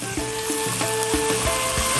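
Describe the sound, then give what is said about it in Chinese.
Onions and dried chilies sizzle as they fry in flavoured oil, a steady, fairly loud hiss that continues without pause throughout. “用这个料油去炒洋葱，把洋葱呢也要把它煸到什么程度呢？哎，上一点小焦边的状态，来把这干辣椒下去。”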